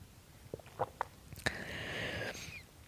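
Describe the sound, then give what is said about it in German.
A sip of coffee: a few small, quiet mouth clicks, then a soft, drawn-out slurp, all faint. “Warte kurz. Ich trinke mal kurz einen Schluck Kaffee.”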